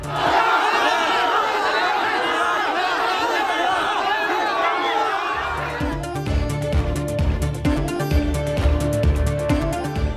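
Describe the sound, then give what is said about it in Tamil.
Dense crowd noise from fans gathered outside actor Rajinikanth's house on Tamil New Year, shouting and cheering loudly for about half the time before music takes over. “Tamil புத்தாண்டையொட்டி நடிகர் ரஜினிகாந்த் வீட்டின் முன்பு திரண்ட ரசிகர்கள் கையசைத்து வாழ்த்து தெரிவித்தார் ரஜினிகாந்த்”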